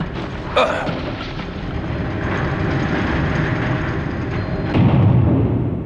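Bomb explosion as a loud, dense roar: a sharp burst near the start gives way to a sustained heavy rumble that swells again with a deeper surge toward the end.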